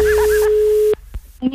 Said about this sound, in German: Das Telefon.